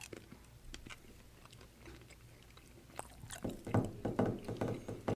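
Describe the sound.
People chew jelly beans in a taste challenge, with soft wet munching and small crunchy clicks that grow louder and busier toward the end.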